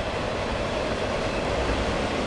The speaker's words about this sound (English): Still waiting for the train. Gosh, it came at the very worst moment. Well. Okay, the train's gone by.